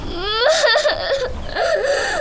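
A child crying and sobbing in loud, wavering high-pitched wails that bend up and down, with short catches of breath and one brief dip near the middle.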